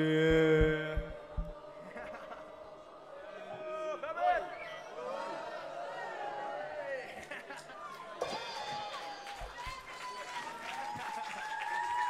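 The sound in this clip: Concert audience applauding between songs, with a loud burst of clapping at the start that gives way to crowd chatter and people talking for the rest.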